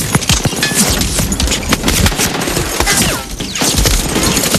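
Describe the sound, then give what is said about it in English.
Machine-gun fire from a fortification above the shore rakes a landing craft. Dense, rapid bursts and sharp impacts with heavy thuds stay loud and continuous, with a brief lull near the middle. “In a fortification above the shore, unseen machine gunners riddle the landing craft.”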